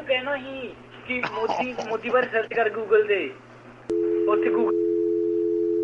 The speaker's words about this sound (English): Oh, they hung up. See, there's a dial tone.